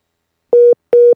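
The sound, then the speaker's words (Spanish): Telephone busy tone after a call was cut off: two identical steady mid-pitched beeps, each short and separated by a brief gap, loud and alone. “Digo, no, que se cortó la llamada de momento. Sí, es que se, se cortó, digo, otra vez.”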